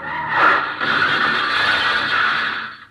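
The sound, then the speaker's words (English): Car tires squeal as a speeding car suddenly takes a sharp corner, a radio drama sound effect. A loud, sustained high-pitched screech with a wavering, grinding edge runs steadily for nearly three seconds with no voices, then cuts off. “Charlie seems to be driving satisfactorily. Slightly over the speed limit, but everything seems to be all right until he suddenly turns a corner sharply.”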